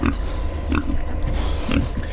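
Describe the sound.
A pig on a Swiss farm grunts and oinks several times in low, rough bursts over a steady, noisy background.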